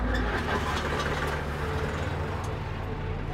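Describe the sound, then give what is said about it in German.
Steady idling rumble of a big motorcycle engine, a continuous low throb that holds evenly from start to finish with no break. “Wir starten mit die dicke Maschine.”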